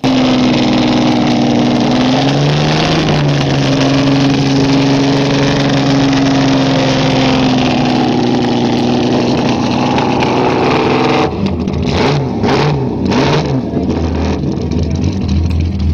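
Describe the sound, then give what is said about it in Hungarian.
A race car engine with an open exhaust of two straight thick pipes runs loud and continuous. Its tone holds steady, then dips, and it turns rougher and pulsing with revs near the end. “Ez ugye annak a versenyautónak a hangja, aminek a héjának a replikája az én Datsun versenyautó projektem, a Hangyász nevű.”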